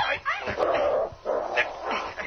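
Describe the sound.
A dog whimpers and yips in short bursts while people speak over it; the dog is being lured with meat so it can be caught and tied up.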